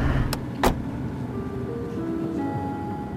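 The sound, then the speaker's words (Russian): Low, rumbling road noise of a car driving on the road from Sheremetyevo airport. Two sharp clicks come early on, and faint tonal whines rise over the steady drone. “В машине по дороге из аэропорта Шереметьево.”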